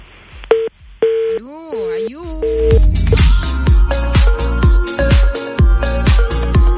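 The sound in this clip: Telephone touch-tone dialing: a few short beeps, then warbling tones and a loud, dense rhythmic run of tones.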